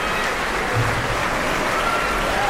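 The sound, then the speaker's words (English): Dense, steady applause from a full concert audience on its feet in Corson Auditorium after an orchestra performance, many hands clapping continuously throughout. “Now we have the whole orchestra back on their feet. And an enthusiastic response from a full auditorium.”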